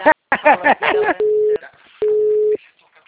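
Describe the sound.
A telephone ringback tone plays while a call is placed, two long, steady single-pitch beeps with a pause between them, after a short stretch of someone talking.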